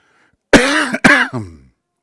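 A person coughs from a tickle in the throat: two loud, harsh coughs in quick succession, followed by a short, rasping throat-clearing tail, with no talk.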